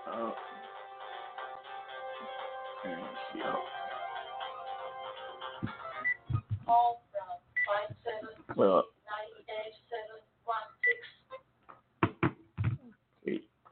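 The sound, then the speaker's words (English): An office telephone rings with a repeating electronic melodic tone for about six seconds, then a voice starts talking in short bursts. “I'm sorry about the phone. I have another phone in the office here, and people call me on the other phone here. I try to turn it off.”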